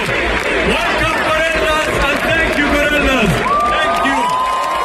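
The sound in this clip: A crowd cheers and claps as a band is introduced at an event for justice in Gaza, with sustained roaring, whoops and voices calling out over the dense noise.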